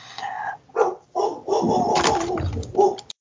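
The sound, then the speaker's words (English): A dog barks in several loud, irregular bursts, some drawn out and some clipped short, with brief gaps between them. “sorry, neighbor came home and my dog was barking.”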